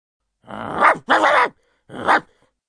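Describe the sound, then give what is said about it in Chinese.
An aggressive hunting dog gives three loud, rough, growling barks, the first two close together and the third after a short pause. “猎狗突然跳了出来，恶狠狠地扑向火焰。”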